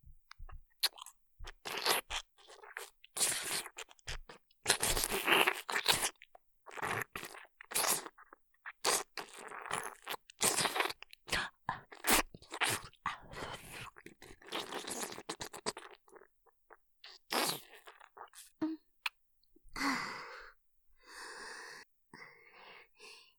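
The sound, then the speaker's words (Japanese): Soft, wet kissing sounds for a first kiss: many close lip smacks and mouth noises come in irregular bursts separated by short quiet gaps. The sounds are fairly faint, and no one talks. “じゃ、お兄さんのファーストキス、いただきまーす。”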